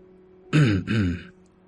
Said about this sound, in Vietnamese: Một tiếng hắng giọng khẽ vang lên từ phía sau.